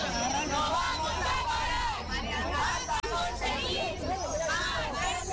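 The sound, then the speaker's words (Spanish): Crowd noise at a street protest in Segovia by public care-home and social-services staff demanding urgent extra staffing: continuous loud babble of many voices and raised shouts, with no pause. “Este es el sonido de la manifestación convocada por el Comité de Empresa de Sanidad y Familia de la Junta de Castilla y León en Segovia para exigir un aumento urgente del personal en las residencias públicas”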